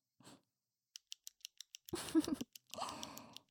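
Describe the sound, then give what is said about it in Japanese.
Faint, sharp clicks of a ballpoint pen, a quick run of evenly spaced ticks followed by a few louder, scratchier handling noises, all quiet and alone. “あ、ていうか、ボールペン休んだまんまだった。”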